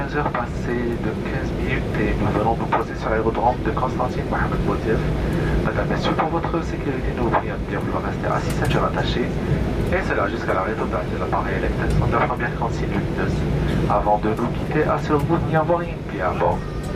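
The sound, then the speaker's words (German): An airplane landing in the afternoon at the airport in Constantine, heard as a steady, low engine rumble throughout under continuous talk. “Anflug auf Konstantin. Es ist Nachmittag. Landung am Flughafen Mohamed Boudiaf.”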